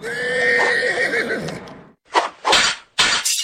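A horse whinnies loudly for about two seconds, a shrill, wavering neigh that drops in pitch. A few sharp, hard hoof-like knocks follow in quick succession.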